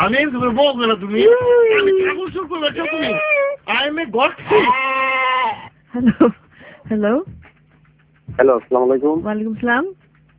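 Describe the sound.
A goat bleats loudly in several wavering, nasal bursts with pauses between them, alongside voices.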